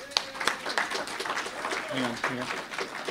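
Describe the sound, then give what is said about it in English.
An audience applauds two presenters introduced before a behind-the-scenes talk about Gunsmoke. Scattered sharp claps patter through a steady wash of clapping, with voices heard over it. “Give it up for Larry and John.”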